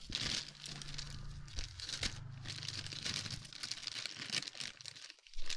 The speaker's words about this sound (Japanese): 開封したいんだけど、この袋の中でまず絡まっとる。